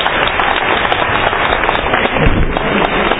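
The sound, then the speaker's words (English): A round of applause rises from the audience at a public meeting, with dense, continuous clapping filling the whole stretch and a slightly muffled, dull tone. “Can you give a round of applause?”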